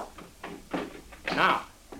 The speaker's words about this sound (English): I'll open the window.